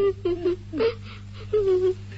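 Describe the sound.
A grandmother weeping, with a few wavering, high whimpering sobs and moans at moderate loudness over a steady low hum.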